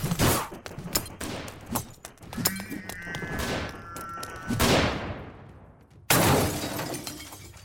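Gunfire from machine guards shooting at an intruder: many sharp, rapid cracks and shattering impacts packed densely together, with a heavy burst near the end.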